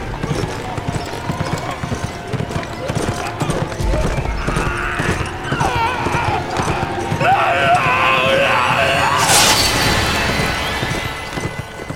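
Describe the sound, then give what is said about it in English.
Horse hooves clip-clop at a steady trot, a loud, continuous rhythmic patter mixed with other busy background sounds. “He put Blaze into a healthy trot.”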